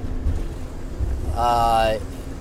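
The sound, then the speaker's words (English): Strong wind and wind shear buffeting an RV stopped at a wayside outside Gallup, New Mexico, a continuous low rumbling roar with uneven surges and a brief voice-like tone rising over it midway. “You're going to find out about the problems of the RV, especially with the wind and the wind shear. You can hear it outside.”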